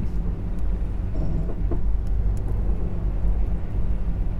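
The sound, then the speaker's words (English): Steady low mechanical rumble of an elevator in motion, a dense unbroken drone with faint scattered clicks and no voices. “Riding a super secret elevator.”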